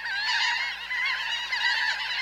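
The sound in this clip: Laughing gulls call in a run of loud, nasal, honking cries that overlap with little pause, their pitch wavering up and down, with no talking.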